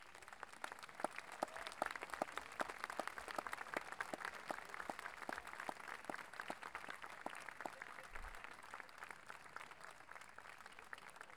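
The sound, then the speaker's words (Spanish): An audience at a music festival applauds two of the event's founders. Many evenly spaced claps keep a steady, rhythmic pulse for the whole stretch, soft overall, with no voices standing out. “señora Rosa Puga Domínguez y señora Lilia Aljario Urrutia, a quienes damos un gran aplauso,”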